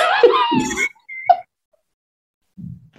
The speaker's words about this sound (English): Oh, there you go. I snorted. I didn't want to snort on an episode like our first episode back because I thought that would be too much.